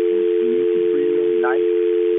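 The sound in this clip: A steady telephone line tone from a caller still connected on a phone line. It holds one unbroken mid pitch, loud for the whole stretch over thin phone-band hiss, with faint muffled voices murmuring beneath it.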